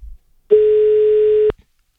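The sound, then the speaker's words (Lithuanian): A telephone line tone while a call is being placed: one steady, clean, mid-pitched tone lasts about a second on its own, then cuts off. “Viskas turim? Numerį? Turim. Skambinam.”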